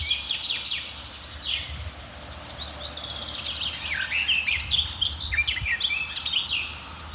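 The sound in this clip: Warbler song, soft and sweet-toned, with quick high twittering phrases that rise and dip, carried over a faint insect chirring.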